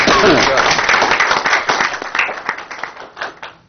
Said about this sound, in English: So can we have an applause for him?